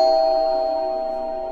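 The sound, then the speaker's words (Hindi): A bell rung at the door of a library: one sustained, bright ringing tone with clear overtones that fades slowly, heard alone. “घंटी बजाई।”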